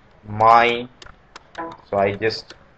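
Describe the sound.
Computer keyboard typing during a software tutorial, as a complex type is entered in a data-model designer: a few light, separate key clicks fall in the gaps of a man's steady speaking voice.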